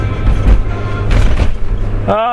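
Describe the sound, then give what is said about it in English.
Inside a Mini car driving over bumpy roads, a steady low engine and road rumble with uneven jolts and rattles; a voice begins briefly near the end. “Yes, the familiar sounds of being in the Mini. Driving over bumpy roads.”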